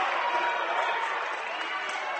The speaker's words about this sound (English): Redskins crowd not happy with that call.